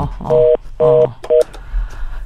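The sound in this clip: Telephone dialing tones during a phone call: three loud, steady DTMF beeps, the first two long and evenly spaced and the third shorter, followed by faint low background noise.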